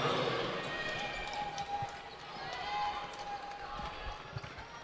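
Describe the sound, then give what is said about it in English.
A basketball is dribbled on a court during a high school girls' game, with a run of soft low thuds beneath faint crowd noise and voices. “trying to dribble toward the lane”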